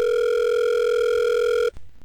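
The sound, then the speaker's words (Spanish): A telephone rings steadily while a call is placed. One long, unbroken ring tone holds evenly, then cuts off abruptly with a click. “Contesta que somos nosotros. Querida, conteste. Aló, Tropicana. Ajá, ¿cuál es la demora? ¿Tú por qué no contestas?”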